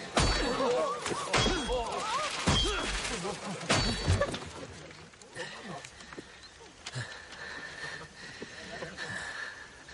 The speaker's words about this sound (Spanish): Desenvaina la espada. La blande en el aire. Cuidado, Majestad. Nada corta más que el acero valirio. Sí. Eso dice. Golpea el libro.